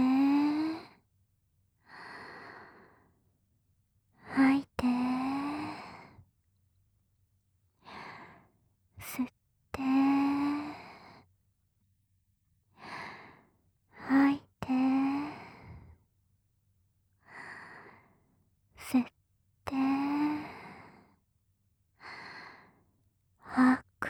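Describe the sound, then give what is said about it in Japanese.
Slow, deep breathing during a guided relaxation exercise: many long breaths, with soft inhales and audible exhales, some voiced like sighs, spaced with pauses. “深呼吸してみよっか。はーい。吸っ”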